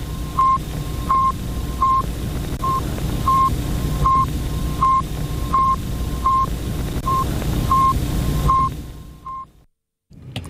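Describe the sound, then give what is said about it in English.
A radio signal from the first artificial satellite sent into space: a regular train of short, identical mid-pitched beeps, roughly a dozen, evenly spaced over a constant hiss of static, before the noise drops away at the end. “Now, that was the sound of a signal on the first artificial satellite sent into space.”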